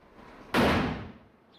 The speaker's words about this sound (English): The door opens.